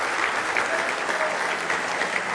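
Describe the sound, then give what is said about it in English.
Audience clapping hands in praise at a church service, a dense, steady roar of applause sustained throughout at a loud, even level with no speech. “Give Him one more big hand clap of praise if you love Him.”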